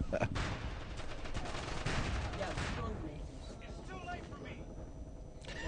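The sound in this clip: Dense gunfire during a video game firefight in which a character is executed. It forms a steady, loud barrage with no clearly separate shots, sharpest near the start and slightly thinning toward the end.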